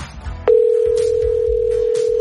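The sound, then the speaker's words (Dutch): A steady, single-pitched telephone tone sounds while a call is being placed. It starts abruptly after a brief low rumble and holds unbroken and fairly loud to the end, with no talk over it. “Dus even bellen met Esther.”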